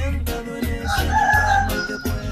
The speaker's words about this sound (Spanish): Y ahí está cantando el gallito. Arriba, árabe. Ahí sonó otra vez.